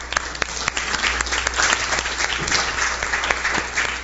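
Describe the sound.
Audience applause welcoming a speaker: dense, steady clapping from many hands, sustained at an even level throughout.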